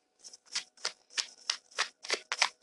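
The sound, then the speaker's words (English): A tarot card deck being riffle-shuffled, with eight quick, crisp bursts of flicking cards in an even rhythm, each separated by a short pause. “Shuffling the Tarot Mucha deck”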